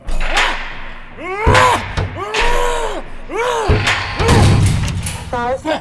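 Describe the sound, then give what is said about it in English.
A small reinforced titanium safe is slammed into a larger safe with heavy metallic slams and thuds. Warbling electronic tones sweep up and down between the impacts. “Just slam the little safe in the big safe.”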